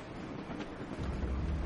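A wartime train carriage rolls along with a faint, steady low rumble and airy, wind-like noise, the rumble thickening slightly toward the end.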